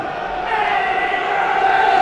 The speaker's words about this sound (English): That's got the crowd going. That's what they want to see.